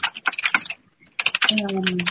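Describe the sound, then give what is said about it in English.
Keyboard typing picked up during an online board meeting: quick, irregular key clicks, a short pause, then more tapping as a voice speaks over it. “whoever's typing, do you mind muting? I think someone's typing”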